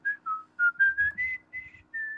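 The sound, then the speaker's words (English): A song whistled as a tune: a run of clear, bright notes, each separate, rising and falling in a simple melody, with a faint low rumble beneath and no voices. “they're whistling, they're whistling a great song.”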